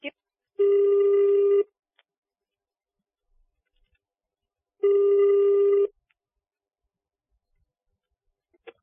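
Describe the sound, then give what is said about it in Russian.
A telephone rings out as a call is placed to the police, with two steady buzzing ring tones of about a second each, separated by a long silent gap, and a faint click or two between them. “Я сейчас звоню в милицию.”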